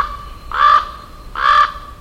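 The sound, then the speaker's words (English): Harsh, hoarse caws from an American crow or common raven: two drawn-out calls, evenly spaced, loud and clear against a quiet background. “there are only two that are completely black, the American crow and the common raven.”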